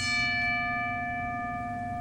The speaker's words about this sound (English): let's get right into it and ring the bell.